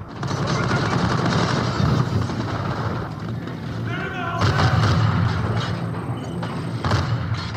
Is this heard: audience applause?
no